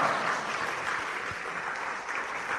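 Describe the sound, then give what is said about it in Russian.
Applause welcoming a speaker at a Vaishnava religious gathering: dense, steady clapping from many hands, fairly loud and even throughout. “И поэтому просим его, чтобы он взял слово и поприветствуем его своими аплодисментами.”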